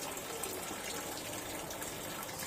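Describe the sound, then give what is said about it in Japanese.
Tap water running while hands are washed, a steady, faint gushing hiss that continues without a break and with no voices over it. “水の音も入ってるはずね。”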